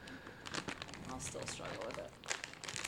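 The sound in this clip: Crinkly plastic rustling as a snack package of dill cashews is torn open, with many small crackles running steadily under people talking.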